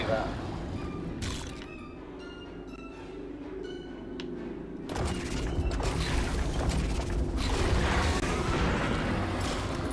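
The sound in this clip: Shots and booming blasts in the video game Lego Star Wars: The Skywalker Saga, sounding under talking voices and growing into a dense, loud barrage in the second half.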